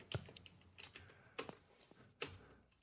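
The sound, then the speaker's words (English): Someone types on a computer keyboard. A few sparse, faint keystroke clicks come at uneven intervals with quiet gaps between them. “someone's moved the return key on my keyboard.”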